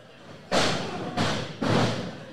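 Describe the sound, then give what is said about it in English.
Three heavy thuds of a wrestler being slammed onto the ring mat during a wrestling match come in quick succession, each a loud, broad impact that decays briefly. “he's bear-hugging Zbyszko and just whipping him around like he's a small child at a daycare. Down. Teachers, don't slam your kids like that.”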